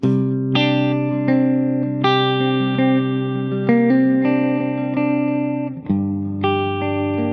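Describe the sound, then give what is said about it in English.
An instrument plays overlapping sustained notes through modulated reverb with a chorus-like wobble and a tape delay, so each note rings on into the next. The playing is loud and steady, with no talk. “I think it's called modulated reverb, which is like a little bit of a chorusy thing. And I've got a tape delay. So it just means that when I'm playing,”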